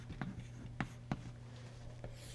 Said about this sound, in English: I'll draw one more for the sake of completeness. Okay. So we'll point this forward, and we'll point that one back.